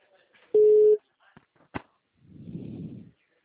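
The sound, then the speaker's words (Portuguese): A telephone line tone after a dropped call: one short, steady, mid-pitched beep, then a couple of sharp clicks and a soft, noisy burst. “desculpa, a ligação caiu”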